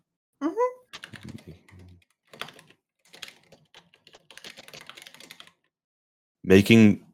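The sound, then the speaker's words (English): Clicking keystrokes on a computer keyboard come in several short, uneven bursts separated by brief pauses, with a person's voice heard at the start and again at the end. “Oh, I'm sorry, I have to type it out in order to like...”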